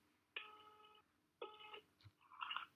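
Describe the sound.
Ringback tone of an outgoing phone call waiting to be answered: two faint, steady buzzing tone bursts, each under a second, separated by a pause, followed by a short low thump and a brighter warbling tone.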